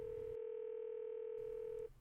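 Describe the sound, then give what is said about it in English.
A telephone dial tone sounds when calling a number. It holds one steady, constant pitch for nearly two seconds, then cuts off, leaving only faint hiss. “when you try to contact someone at the Center for Medical Progress by the number listed on the CMP website, you're directed straight to their voicemail.”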